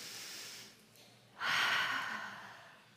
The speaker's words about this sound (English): would you take a moment? And even you kids, if you could just take a big deep breath in through your nose